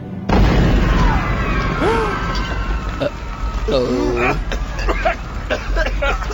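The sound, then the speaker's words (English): A bomb goes off inside a theatre in a detective video game: a sudden loud blast followed by a sustained, dense roar. Brief shouting voices cut through the noise. “Bomb.”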